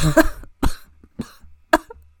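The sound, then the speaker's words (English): A person gives a few wet, phlegmy coughs, short separate bursts spaced evenly apart, fairly loud and alone, with no speech. “A wet cough.”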